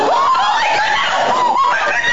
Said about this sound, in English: Oh my word. Oh my word. I'm sorry I screamed.